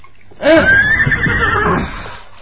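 A horse neighs in a single loud, shrill whinny lasting about two seconds, vibrating and strained before trailing off, heard alone without speech.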